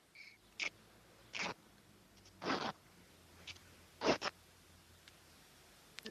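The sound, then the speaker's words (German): Fabric rips as a towel is torn apart by hand: several short, rasping tearing bursts separated by quiet pauses, with no talk. “Jetzt ins Drittel. Es ist übrigens ziemlich warm hier und trotzdem zerreiße ich das Handtuch.”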